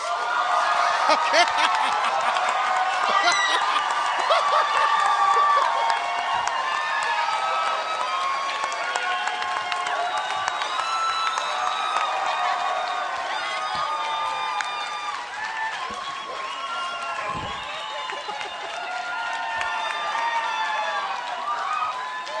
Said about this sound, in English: They're ululating. Well, they know when they're in the presence of royalty.